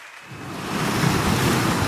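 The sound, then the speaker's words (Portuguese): Sea waves rush and wash, swelling from a quiet start into a broad, steady roar of surf that holds to the end. “Fechem os olhos. O mar está já ali.”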